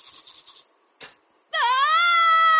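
A person brushing their teeth screams: a few short, soft scrubbing bursts, then a loud, sustained, high-pitched scream that holds to the end.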